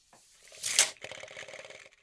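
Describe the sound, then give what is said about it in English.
A reinforced 7.5 metre tape measure is pulled out and retracted: a short hissing rush of the sliding blade, then a quick run of small ticking clicks, fairly quiet overall. “Oh, that's satisfying. This is the new Air AJ measuring tape. 7.5 meters, 25 feet. And it's reinforced. It's a tape measure.”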